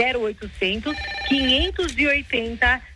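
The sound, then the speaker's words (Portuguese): A telephone rings with an incoming call, its bright tone sounding under a person who keeps talking throughout. “Minha mulher tá ligando aqui”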